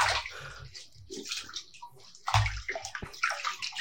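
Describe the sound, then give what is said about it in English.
Bathwater splashes and sloshes in a bathtub as a child is bathed, with irregular swishing and a couple of louder splashes standing out from the softer movement of water. “My mom is giving my niece a bath.”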